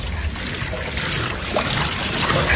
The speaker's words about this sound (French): Ici, là, il faut appuyer sur le bouton, là. Et pendant un certain temps, ça va faire couler de l'eau.